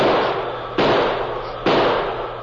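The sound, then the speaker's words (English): Three loud shots ring out from a heavy six-gun revolver fired repeatedly by a man lost in a storm in open countryside. Each crack is sharp and broad, with a long fading tail before the next. “Desperately, he pulled the heavy six-gun from under his mackinaw and began firing.”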